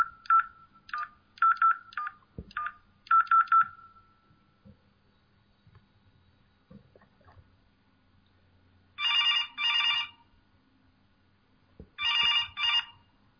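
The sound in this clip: A telephone call being placed: a quick run of many keypad dialing beeps, a quiet pause, then two rounds of double-pulse ringing tones, with faint low rumble in between.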